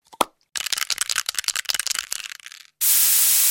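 A CFC-free aerosol spray can gives one sharp click, then a fast, uneven rattle of many shakes, then a steady, loud hiss of spraying that carries on to the end.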